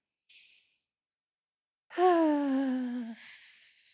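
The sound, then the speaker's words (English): Deep breath during a guided stress-relief breathing exercise: a short, soft airy inhale, a brief pause, then a long, loud, voiced sigh of an exhale that drifts slightly downward in pitch and trails off into breathy air. “So we'll take in a deep breath and breathe out all your stress out and so like so.”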